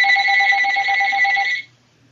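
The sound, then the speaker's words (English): A phone ringer sounds a loud, continuous electronic warbling ring for about a second and a half, then cuts off abruptly into near silence. “Someone didn't turn the ringer off their phone.”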